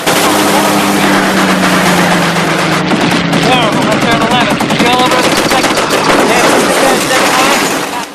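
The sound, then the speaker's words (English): Machine gun fire from a bomber's top turret and other crew positions, aimed at attacking German fighters. Loud, dense rapid-fire bursts rattle continuously through the whole stretch with no real pause. “In the top turret, Verge is firing at the enemy. The crew fire at random from their various positions.”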